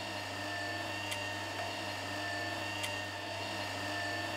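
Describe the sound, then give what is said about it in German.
Electric caravan mover, a motorised shunting aid for a caravan, running with a steady, even motor hum and a faint tonal whine. The drone stays low and constant throughout, with no talk. “Mover heißt das gute Stück. Eine Rangierhilfe. Die beste Erfindung für einen stressfreien Start in den Urlaub, findet er.”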